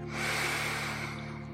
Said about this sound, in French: Maintenant, vous pouvez inspirer par le nez en gonflant le ventre